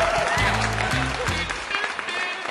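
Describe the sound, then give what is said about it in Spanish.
Audience applause welcomes a stand-up comedian to the stage: a steady wash of clapping that stays dense and fairly loud for the whole few seconds. “Recibamos con un fuerte aplauso a Claudia.”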